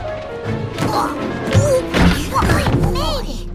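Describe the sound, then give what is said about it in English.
A cardboard box bouncing past other packages onto a mailroom floor, a few dull thumps and knocks heard under voices. “In a mailroom, the cardboard box bounces past other packages to the floor.”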